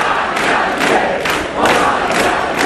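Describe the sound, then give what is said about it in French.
A crowd cheers and chants at a Jean-Luc Mélenchon rally in Paimpont, a loud massed roar that swells in rhythmic bursts of voices over a steady wash of noise. “Un public conquis qui n'a qu'un seul mot à la bouche, la victoire en 2027.”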